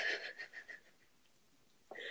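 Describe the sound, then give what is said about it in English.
Breathing in a calm relaxation exercise: a soft, breathy exhale fades into near silence, and another breath starts just at the end. Both are faint, with no talking. “Big breath in. Blow out. Big breath in. Blow out.”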